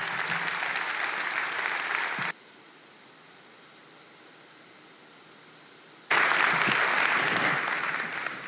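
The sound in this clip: An audience at a church service applauds to welcome a speaker: dense, steady clapping that cuts off abruptly, leaves a few seconds of faint hiss, then resumes just as loud.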